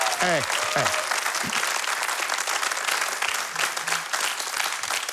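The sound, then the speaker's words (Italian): Loud audience applause fills a hall at a judged singing contest. After a brief voice at the start, the clapping swells into a dense, sustained roar that continues steadily to the end. “Prima di tutto non mi è piaciuto l'applauso che avete fatto all'inizio, quindi proviamo prima l'applauso. Attenzione, forte, di più. Ancora di più.”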